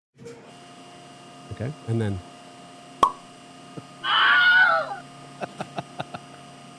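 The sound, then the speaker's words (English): A voice mimics an MRI machine over a steady electrical hum: a few short buzzy bursts, a single tone, a longer harsh warbling buzz, then a quick run of sharp clicks. “This is what I believe that MRI sounded like. Okay. Listen carefully. This is the sound of the MRI.”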